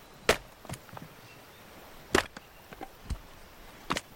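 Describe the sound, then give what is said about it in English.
An axe strikes a log in several sharp, irregular chops, a few loud cracks spaced apart with fainter knocks between them, as if the chopping is clumsy and unsuccessful. “He's outside, failing to chop a log.”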